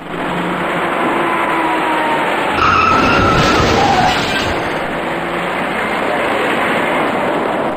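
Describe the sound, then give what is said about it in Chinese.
Tires squeal as a dark small passenger car skids while rear-ending the slowing car ahead in traffic. A dense, loud roar of road and engine noise surges briefly in the middle, with a thin screech riding above it. “驾驶这辆深色小客的司机完全没有注意到前方的车辆已经减慢车速，在毫无措施的情况下，深色小客严重追撞到了前车，”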